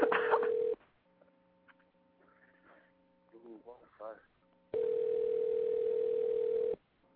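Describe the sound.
Steady telephone dial tone on a phone call, holding for under a second at the start and returning for about two seconds near the end, with low voices and shuffling in the gap between.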